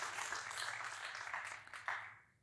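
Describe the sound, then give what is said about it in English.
Audience applause at a talk on preaching: dense, even clapping that holds for a couple of seconds and then tapers off quickly at the end. “Can we just give David Guzik a round of applause?”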